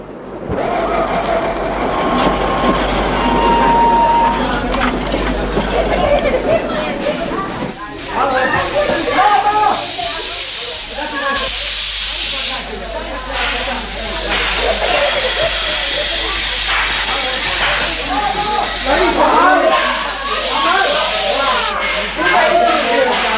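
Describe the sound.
A train pulling into a station, a radio drama effect, gives a long steady rumble with hissing and rattling under a man talking throughout.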